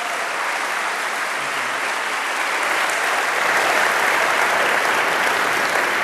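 A church audience applauds to welcome a pastor, with steady, dense clapping that holds loud and even for about six seconds and swells slightly toward the end.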